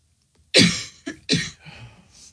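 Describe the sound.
A few harsh coughs. A strong first burst is followed by two shorter, sharper ones close together, then some faint breathy noise trails off.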